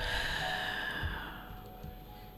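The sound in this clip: A deep breath taken during a guided breathing exercise: one long, soft, airy rush of air that gradually fades over about two seconds, faint and alone with no talk.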